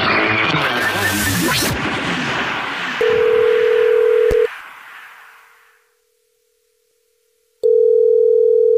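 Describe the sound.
Telephone tones on an outgoing call-back. A loud, noisy burst fades away, then a steady mid-pitched tone holds for about a second and a half. After a few seconds of silence, the same tone returns.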